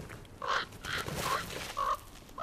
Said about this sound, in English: The hungry crows soon regain their courage. They'll try any trick to steal a morsel.